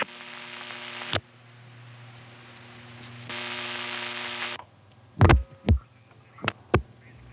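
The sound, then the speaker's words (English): Mechanical noise from a 7A type telephone announcement machine: a steady droning hum that drops and returns, then several sharp clunks and thumps near the end. “That was a 7A type announcement machine with its distinctive sound at the end. Sounded like it got stuck the second time, because when it started up we heard the noise of the machine”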